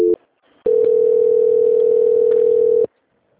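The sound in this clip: Steady telephone tone heard on a line while a call is being transferred: a very short tone blip, a brief pause, then one sustained mid-pitched tone lasting about two seconds before cutting off to silence.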